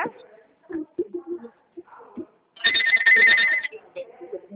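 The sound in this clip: A landline telephone rings in one short burst of bright electronic trilling, loud over intermittent talk that continues before and after it.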